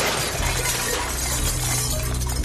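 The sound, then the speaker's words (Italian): A mirror shattering: a loud, dense crash of breaking glass that fills the whole clip with bright, harsh, continuous noise. “Hai distrutto lo specchio.”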